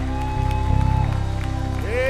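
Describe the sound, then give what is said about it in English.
A church audience claps in rhythm and shouts in praise during worship. A steady beat of hand claps rides over sustained tones, with voices mixed in. “Come on, clap your hands, shout unto God.”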